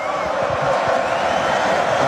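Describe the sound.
An audience cheering and roaring, drowning out a performer's greeting, as a loud, steady, unbroken wash of crowd noise throughout.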